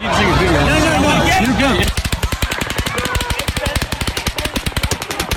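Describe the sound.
An automatic weapon fires into a crowd at a music festival in Las Vegas near a hotel. Loud crowd and music noise gives way to a long, rapid burst of many sharp, evenly spaced shots.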